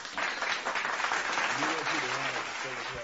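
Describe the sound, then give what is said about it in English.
Round of applause from a gathered group, steady clapping that holds throughout, with voices talking over the second half. “Get that shit a round of applause.”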